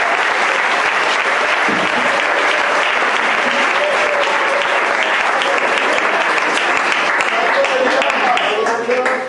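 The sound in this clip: Applause from an audience at a religious service: steady, dense clapping that keeps up for the whole stretch at an even, loud level, with voices mixed in.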